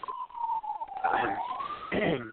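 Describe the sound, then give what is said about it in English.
A siren passes outside a window, a faint wavering tone that dips slightly and rises again, with a voice speaking over parts of it. “There's a siren.”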